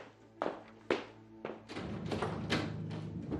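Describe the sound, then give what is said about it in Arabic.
Someone knocks on a door in a crime drama: a few loud, spaced thuds, then faster, heavier pounding over a low music bed. “ايه ده؟ مين اللي بيخبط بالشكل ده؟ ومين جاي لنا الساعه دي؟”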